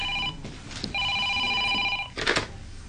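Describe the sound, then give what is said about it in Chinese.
A telephone rings with a bright electronic warble in two bursts, the first cut short, followed by a brief loud clatter. “你电话响啊？”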